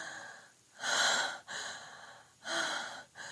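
Heavy breathing of someone catching their breath: a few loud, rasping breaths, each separated by a brief silent pause.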